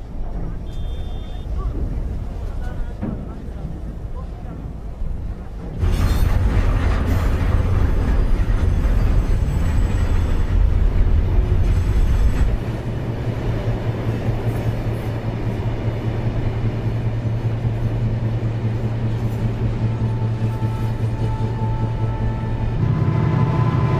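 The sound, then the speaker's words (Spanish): A long freight train crossing the Sahara rumbles with a steady low drone. It grows noticeably louder partway through, then settles into a sustained heavy hum with faint higher rattling. “se transportan automóviles en el propio convoy del tren”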